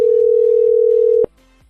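A phone tone sounds after a dropped call, holding a single steady pitch for just over a second before cutting off abruptly. A faint, lower tone lingers briefly afterward.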